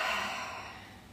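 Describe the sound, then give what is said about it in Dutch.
A single deep breath through the nose, a soft, airy rush that gradually fades over about a second, heard alone. “En dan zet je dat gewoon op je neus. En adem je een paar keer diep in en uit.”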